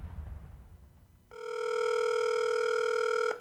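A telephone rings with an incoming call on a radio call-in line: after a quiet moment, one steady electronic ring tone sounds for about two seconds, then cuts off abruptly with a click.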